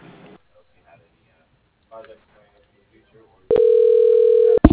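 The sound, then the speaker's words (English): Telephone call being transferred to voicemail: brief faint voice fragments and near silence, then one loud, steady electronic tone lasting over a second, cut off by a short click. “I can actually transfer you to his voicemail”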